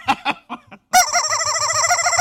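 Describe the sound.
A chicken calls loudly: a few short clucks come first, then a long, wavering squawk that runs on for over a second.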